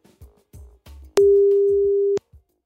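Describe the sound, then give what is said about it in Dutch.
A telephone ringback tone sounds while a call is being placed: one steady, mid-pitched tone lasting about a second, opened and closed by sharp clicks, with a few faint short sounds before it. “Gaan we eens eventjes over bellen.”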